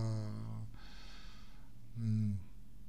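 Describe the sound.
Wheezing breath sounds from a chest examination: two faint, musical, whistling exhalations with a softer breathy stretch between them.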